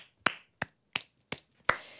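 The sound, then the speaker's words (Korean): Five sharp hand claps, slow and evenly spaced, each a crisp crack with a brief decay, heard alone without talk. “아 박수.”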